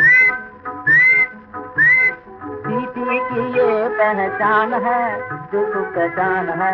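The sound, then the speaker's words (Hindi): Whistling in a song: three bright, swooping whistled notes open the passage, then a busy melodic line of whistle-like tones continues over a steady musical backing. “धीरे धीरे सीटी बजाऊंगा, मेरी सीटी की ये पहचान है,”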